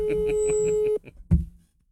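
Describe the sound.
A telephone ringing tone sounds on a call as a steady, pulsing electronic tone for about a second and then cuts off abruptly. A brief voice follows.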